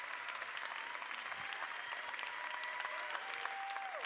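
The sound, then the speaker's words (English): Audience applause welcoming a preacher at a church service: steady, even clapping from many hands that continues without a break, with a faint held tone running through it. “Let's put our hands together. Let's welcome Pastor Joby as he comes to preach to us.”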